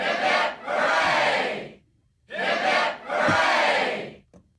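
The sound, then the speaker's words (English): A crowd giving three cheers of hip hip hooray: loud massed shouting in two short-then-long bursts, separated by a brief pause, with a small final sound at the end. “But today's three cheers are for all of our Vietnam veterans and all serving members of the armed forces, for that matter. And Captain Cook.”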